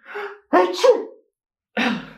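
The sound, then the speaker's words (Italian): A single human sneeze, preceded by a short breathy intake and ending in a forceful burst, with a brief vocal sound following after a pause. “Quando in Italia fai uno starnuto si dice salute.”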